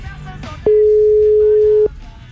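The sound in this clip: A telephone rings unanswered on a call-in phone line: one steady, mid-pitched electronic tone about a second long, loud over faint background talk.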